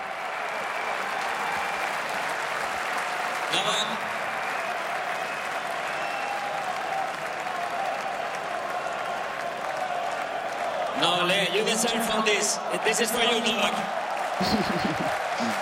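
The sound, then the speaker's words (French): Tennis crowd applauding and cheering Novak Djokovic, steady sustained clapping throughout, with voices shouting out more strongly in the last few seconds. “Ce sont les encouragements du public avec le diminutif de Novak Djokovic en serbe.”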